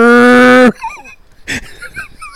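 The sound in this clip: A voice imitating a cow mooing, one loud, steady, buzzy low tone held for under a second and cut off abruptly, followed by quieter squeaky, wavering vocal sounds.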